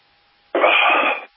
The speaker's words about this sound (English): Excuse me, I needed to take a drink there.